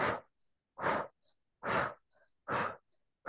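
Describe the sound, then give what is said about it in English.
Slow, deliberate breathing in and out through the mouth as a calming exercise: four loud, airy breaths come at an even pace, with a fifth just beginning at the end and faint gaps of quiet between them. “And you can breathe in and out just through your mouth, like,”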